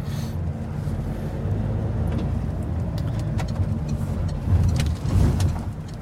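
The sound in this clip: Low engine rumble of a car being driven in traffic, a continuous steady drone with small swells and a brief dip near the end, with no voices.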